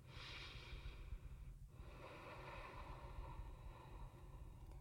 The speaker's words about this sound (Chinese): 深呼吸，然后缓缓的吐气。